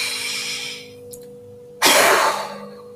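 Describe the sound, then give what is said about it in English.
Fast, hard exhale during a breathing exercise: a softer airy breath fades out, then after a short pause a sudden loud rush of breath bursts out and tapers off, over a faint steady hum. “But when you breathe out fast and hard.”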